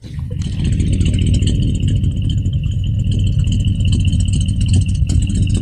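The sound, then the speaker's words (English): A 1959 car idles through its factory exhaust fitted with silencers, a steady, fairly loud low rumble with a soft rhythmic throb and a thin higher whine riding above it, continuous throughout. “So it has silencers on the exhaust also. So it really keeps the noise down, makes it a nice quiet ride. It is running right now.”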